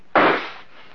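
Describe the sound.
A rifle shot strikes a jug on a table: one sudden, sharp, loud crack followed by a short, fading, hissing noise tail.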